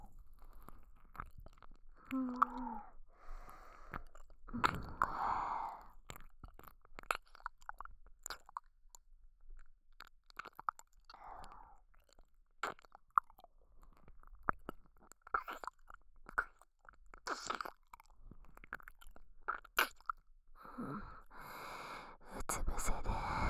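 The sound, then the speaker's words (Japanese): Wet ASMR mouth sounds of ear sucking and licking, made close to the ear: many soft, irregular smacks, slurps and clicks with breathy pauses, quiet and intermittent throughout. “今から君の耳をいっぱいしゃぶってふにゃふにゃにしてあげる。まずはこっちの耳から。”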